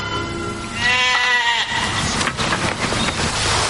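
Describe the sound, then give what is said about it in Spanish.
Sheep in a flock bleating: one loud, wavering bleat stands out, followed by a continuous noisy background. “ese rebaño de ovejas que debo cuidar”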